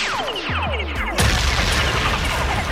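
A bomb explosion sound effect: a few whistling tones fall steeply in pitch, then a loud, broad blast bursts out and rumbles on to the end, with no voices.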